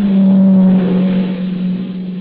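A car approaches with a steady, loud engine drone and a low, sustained hum. It is heard alone, without voices, and eases slightly in level toward the end.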